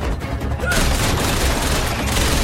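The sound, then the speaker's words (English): Dense, loud gunfire from an action-film shootout in a flat as armed thugs are gunned down, a continuous burst of many overlapping shots with no clear gaps. “He guns down another armed man.”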